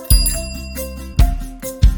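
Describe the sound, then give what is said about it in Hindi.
Bicycle bells ring with three sharp, bright strikes whose high tinkling overtones linger, heard over a steady low tonal backing. “ट्रिंगलिंग ट्रिंगलिंग ट्रिंगलिंग bicycle day, cycle की घंटियां कहे hello”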